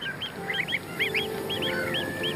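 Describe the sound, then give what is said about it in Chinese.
Greylag geese honk repeatedly: a group of moulting adults gives many short, nasal, arched calls in quick overlapping succession, at a steady moderate loudness throughout. “雌性赤狐把目光放在了灰雁身上，一些成年灰雁的飞羽已经脱落，飞不起来了”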